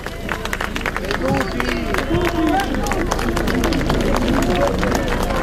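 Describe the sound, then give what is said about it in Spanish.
A crowd applauds as the Pope arrives by car and steps out, many hands clapping in a dense patter mixed with excited crowd voices, a steady and fairly loud hubbub from start to finish. “Es un auto del cual desciende, aquí está el aplauso.”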